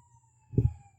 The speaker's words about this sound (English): Yep, siren's going by. Boy, I hope nobody's hurt.